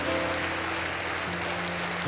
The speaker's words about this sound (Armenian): Եկեք բարձր ծափարենք Տիրոջը։